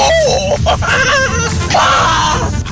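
Human screaming and pained yelling, several strained, high-pitched vocal bursts with wavering pitch, loud and continuous over a noisy backdrop.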